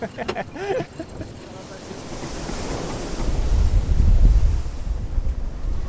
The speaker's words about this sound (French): Hop, on s'est pris une vague sur la tête.